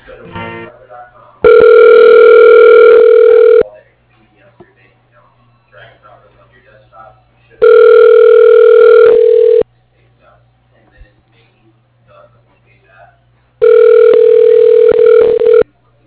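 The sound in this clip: Ringback tones as a phone call is transferred to an extension: three long, steady, buzzy tone bursts of about two seconds each at regular intervals, loud, with quiet line noise between them.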